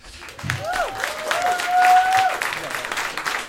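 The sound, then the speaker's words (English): An audience applauds at a live comedy show. The dense clapping swells to a peak midway, then eases slightly while staying steady to the end. “Another round of applause for Vern Tooley, everybody.”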